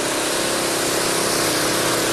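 A water pump runs with a steady, dense motor drone while it is primed, with buckets of water scooped by hand into its filter. The sound holds at an even, fairly loud level throughout and has no break.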